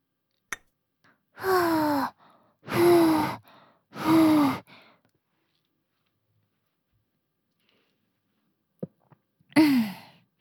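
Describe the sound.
Blowing on a hot cup of blended coffee to cool it: three long, breathy, evenly spaced puffs, then a quiet pause and a fourth puff.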